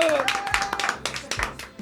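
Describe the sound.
An audience claps for a group member being introduced on stage: a handful of sharp, uneven hand claps with talking underneath.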